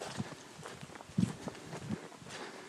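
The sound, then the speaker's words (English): Hoofbeats of a pair of deer running across a path: a few soft, low thuds, faint against quiet outdoor background. “Hey, look, there's deers. Oh, wow, cool. A pair of deers just ran across the path here.”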